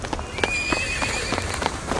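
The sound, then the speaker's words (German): Horses ridden fast across a square, their hooves striking in quick, irregular beats that run throughout, with many sharp hits over a steady background and no voices. “die Reiter sind super nett. Zwei von ihnen reiten bereits schnell über den Platz.”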